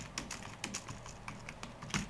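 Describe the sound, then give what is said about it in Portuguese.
Faint computer-keyboard typing at a desk set up with two computers and two separate keyboards: light, irregular key clicks spread throughout, a few sharper taps standing out, the firmest near the end. “Eu separo os teclados para não ficar muito confuso. Às vezes eu digito num, depois digito no outro.”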